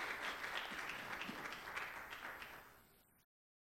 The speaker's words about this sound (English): Why don't you put your hands together and make him welcome.